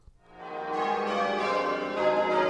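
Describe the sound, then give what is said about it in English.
Large church bells rung in change ringing: after a brief quiet start, overlapping metallic tones swell in and ring on continuously, with fresh strikes layered over the sustained hum. “What you're hearing is a sequence of people ringing changes on massive bells. It's not quite music, but it's not quite noise.”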